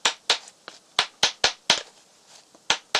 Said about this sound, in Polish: To także ręką uciskiem się nie da. Ono trzeba brać po prostu ubijaczkę. O, tu się stawi dłutko i...